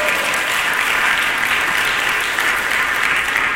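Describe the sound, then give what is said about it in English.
Congregation clapping hands during a church service: continuous, dense applause from many people, loud and even from start to finish with no pauses. “Clap your hands and say, praise the Lord.”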